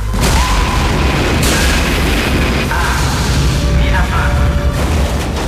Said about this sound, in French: départ séquence mise à feu.